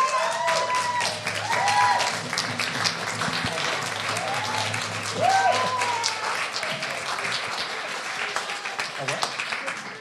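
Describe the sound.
An audience applauds to welcome a speaker, with dense, sustained clapping throughout and voices heard over it.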